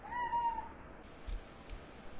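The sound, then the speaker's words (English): A cat meows once, a short, faint, high-pitched call near the start, followed by quiet background with a couple of soft low thumps. “That was a cat.”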